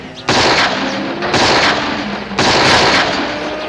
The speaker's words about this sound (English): Dad, give me that six gun and take this Winchester. I just reloaded it.